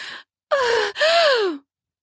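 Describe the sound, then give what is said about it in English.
A woman's pleasing gasp: a brief breathy intake, then two longer voiced breaths whose pitch slides downward, heard alone. “arched her back in response with a pleasing gasp.”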